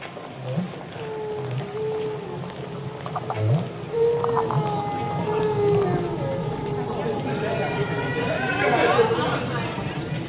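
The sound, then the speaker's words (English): Recorded song of a male whale: low moaning and whistling calls that glide up and down in pitch over a steady muffled rumble. “What you're hearing is recorded whale song. It is sung by the male.”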